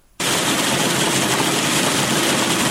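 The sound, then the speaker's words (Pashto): A machine cleans harvested pistachios from an orchard in Kandahar, kicking in abruptly with a loud, dense, unbroken roar that stays level to the end. “په دې ماشینونو کې د کروندګرو لخوا د باغ څخه ټوله سوې پسته پاکیږي او بیا د وچېدو وروسته بازار ته وړاندې کیږي.”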